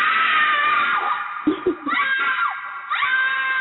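A woman screaming as a sound effect: a few drawn-out, high-pitched, loud screams broken by brief gaps.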